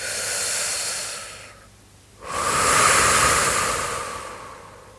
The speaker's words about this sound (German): Beginne einfach zu atmen Atme ganz fest aus. Und wieder ein.